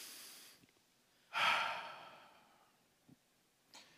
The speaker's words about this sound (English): let's just inhale and exhale